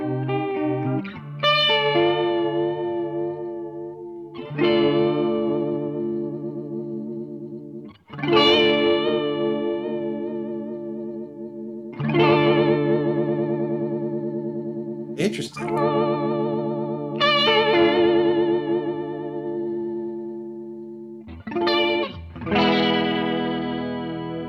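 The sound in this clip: Electric guitar chords played through an MXR chorus pedal, several strummed chords each left to ring and fade, with a shimmering, warbling chorus tone. Short bursts of a brighter attack separate the longer sustained chords, and no one talks.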